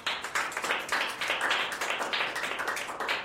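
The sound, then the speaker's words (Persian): Classroom of pupils clapping for a classmate at the blackboard, a brisk, even patter of many small hands, fairly quiet and unbroken from start to finish. “خب آفرین، یه دست بزنید براش.”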